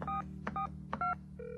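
Touch-tone telephone keys being dialed by hand: four short dual-tone beeps in steady succession, with faint clicks between them over a low, steady hum.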